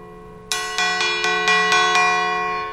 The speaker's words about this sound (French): si on sonne la cloche toute seule,